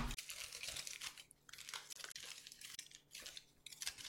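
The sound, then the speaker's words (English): A small piece of 365 Everyday Value brand aluminum foil, from a 75-square-foot roll, is crinkled and ripped off the roll. Faint, crackly rustling comes in a few uneven bursts. “I have a 365 Everyday Value brand aluminum foil, 75 square feet, and I am pulling it out of the thinger. And I'm gonna rip a little off. The smallest amount I can rip.”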